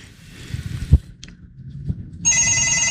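A telephone starts ringing after a few faint knocks and thumps, its bright, steady electronic ring continuing loudly to the end.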